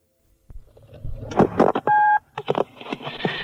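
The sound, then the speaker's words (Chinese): Telephone dialing tones on a home phone line tapped by police during a kidnapping case: a brief steady multi-tone burst set among clicks, rustling handling noise and short tonal blips. “而以下我将给各位播放这个电话的全部过程。”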